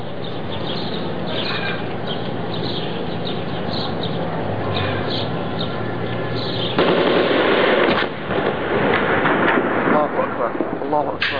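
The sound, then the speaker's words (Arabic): Heavy bombardment of a cemetery in Douma: a dense, continuous rattle of rapid gunfire-like bursts, growing louder with strong blasts near the end, with voices present. “نشاهد كيف يتم قصف مقبرة دوما.”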